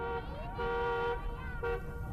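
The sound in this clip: A jeep on a street sounds its horn in a few loud, steady toots, each a bright, held tone with a slight upward bend at the start, separated by short gaps, over a low rumble of engine and road noise.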